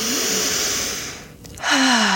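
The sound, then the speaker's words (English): A deep breath drawn in through the nose, a steady airy rush that briefly drops away and then returns at full strength. “To begin, take a deep breath in through the nose”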